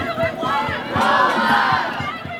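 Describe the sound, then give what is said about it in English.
Loud crowd of striking graduate students protesting over low wages and high living costs, chanting and shouting together in a steady rhythm, with regular beats running under the voices. “That's the sound of protests earlier this year when dozens of UC Santa Cruz graduate students went on strike over low wages and the high cost of living expenses.”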